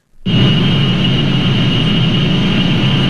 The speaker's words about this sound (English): Know what that sound is? If you live near one of the 3,000 data centers around the country, it might sound familiar.